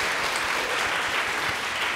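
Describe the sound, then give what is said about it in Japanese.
Congratulatory applause in a church as the audience cheers members celebrating their birthdays: steady, dense clapping from many hands that stays even and loud throughout with no voices standing out. “拍手でおめでとうございます。”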